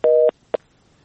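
Busy tone after a phone call is disconnected: one steady electronic beep lasting about a quarter second, then a second beep cut off almost at once, followed by near silence.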